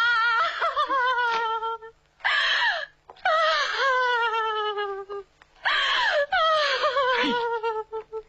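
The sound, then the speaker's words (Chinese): A woman cries and wails loudly during a domestic quarrel, with several long, quavering, high-pitched sobbing bursts separated by brief pauses. “你看你在这儿有哭有闹的，叫外人听见了多不好。”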